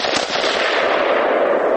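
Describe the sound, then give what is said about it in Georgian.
Rapid gunfire from a Bushmaster self-loading rifle, a dense, loud, continuous burst of shots blurring together for nearly two seconds with no talk. “უბრალოდ ჩახმარზე თითი გეჭიროს. გასწრაფად ისვრის, არა? ასე ისვრის თვით დამტენი შაშხანა ბუშმასტერი.”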